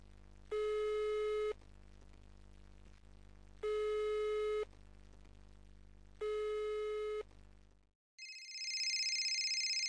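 Ringback tone of a phone call that rings out unanswered: three long, steady buzzing tones separated by pauses of about a second. After a brief silence, a higher warbling electronic tone starts and runs to the end.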